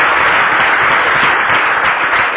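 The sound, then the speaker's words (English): A church audience applauding in a service, a dense, continuous wash of clapping at steady loudness throughout the short clip with no voices. “Give Jesus a clap offering.”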